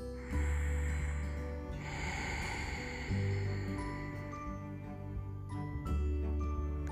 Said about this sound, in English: to listen to the sound of the friction of breath passing through. Deep in your throat.